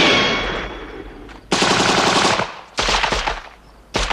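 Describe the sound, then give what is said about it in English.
Automatic gunfire in a film shootout as agents fire on a sniper behind a rock: a fading rattle opens, then three loud, sharply cut bursts of rapid shots follow one after another. “Agents open fire on Saxby, who's sniping from behind a rock.”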